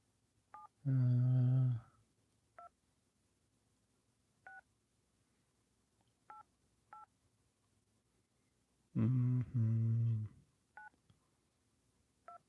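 Telephone keypad tones dial a 1-800 number as several short, clean beeps spaced unevenly. Two longer, louder buzzing bursts break in between the beeps.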